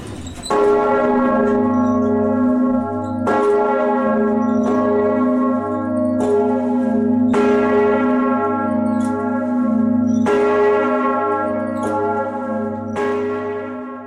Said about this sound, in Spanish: la mano negra no llega a un lugar hasta que se escuchan las campanadas.